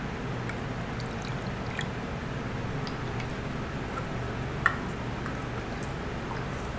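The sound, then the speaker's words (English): A fizzy carbonated drink poured from a bottle fitted with a custom-made cap, giving a steady soft hiss of bubbles dotted with tiny scattered pops. “Nice and fizzy. Pour me some.”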